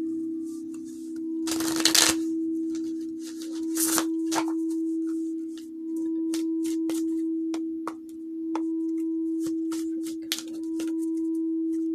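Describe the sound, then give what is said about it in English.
Oracle deck cards are shuffled and drawn, with a few bursts of papery riffling and many small snaps and flicks of single cards over a steady low hum. “For some reason, I want to do take out a oracle deck. Just one card. Just want to see.”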